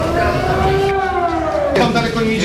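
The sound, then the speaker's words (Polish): Civil defense sirens wail across Wrocław during a drone-attack drill, a loud, steady, droning tone that glides slowly downward in pitch and holds throughout. “We Wrocławiu dziś ćwiczenia służb na wypadek ataku dronowego. W całym mieście zawyły syreny.”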